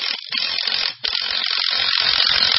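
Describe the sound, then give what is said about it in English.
Mechanical ratcheting whir of a screw being driven in to mount an open sign at an Auto World store: a steady, gritty grinding that breaks off briefly about a second in, then continues. “Man, that screw was longer than the last one.”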